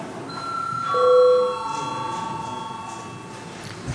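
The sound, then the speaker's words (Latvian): A bell rung in a parliament chamber to call members to a vote: a sustained, steady ringing tone that holds through the whole clip and swells briefly louder near the start before continuing evenly. “Lūdzu zvanu.”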